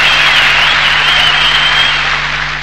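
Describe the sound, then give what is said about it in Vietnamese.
Applause rings out after a singer finishes two songs at a contest. The clapping is a steady, dense wash of many hands, level throughout with no voices over it. “Hai bài hát Chu Hoa Kiệt đã biểu diễn xong, tiếng vỗ tay vang lên như sau.”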